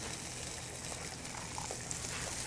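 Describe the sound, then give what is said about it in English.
Potatoes and carrots sizzle as they are stir-fried in a pan, a steady, faint, even hiss of frying vegetables with no talk. “And once you stir fry that for about a minute or two, next we're going to add in the young squash and onions.”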